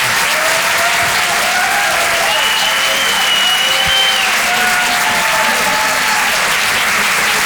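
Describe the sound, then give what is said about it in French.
Loud, sustained applause from a comedy club audience, a constant dense clatter of clapping with a few whoops and cheers rising above it. “Faites un maximum de bruit, s'il vous plaît, pour Gaëtan Husson.”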